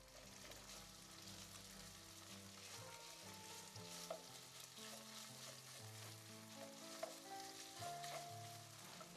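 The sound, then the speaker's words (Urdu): Minced meat browning in a pan with salt and chili sizzles faintly and steadily, with soft stirring scrapes and a couple of sharper clicks over the constant hiss. “اسی میں نمک اور مرچ بھی ڈالتے ہیں, لیکن قیمے کو شروع سے ہی اچھی طرح بھونا جاتا ہے.”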